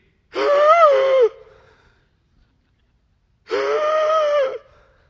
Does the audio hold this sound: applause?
no